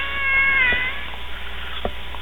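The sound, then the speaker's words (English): An annoyed cat meows once, loudly, in a drawn-out whiny cry, followed by a few faint clicks over a quiet background. “Nice kitty. Kitty's pissed right now. Kitty wants down.”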